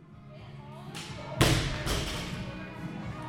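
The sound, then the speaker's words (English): Heavy weights thud a few times at the Evoke Fitness gym, with one sharp impact standing out over a steady wash of background voices and gym noise. “You can hear the grunts and clangs of a typical gym when you walk in to Evoke Fitness on any given day.”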